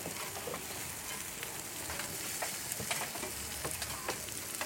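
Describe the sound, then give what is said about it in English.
Meat sizzles on a grill kept at moderate heat, a steady, faint hiss of crackling fat with scattered tiny pops and no talk. “And when we're cooking here, we're cooking at kind of what I would call maybe a temperate grill, not too high, so that it cooks entirely rather than burns on the outside”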